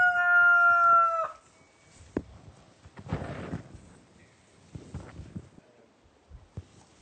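A rooster crows inside a cannabis greenhouse, a loud, bright crow that ends abruptly after about a second, followed by faint scattered clicks and rustling.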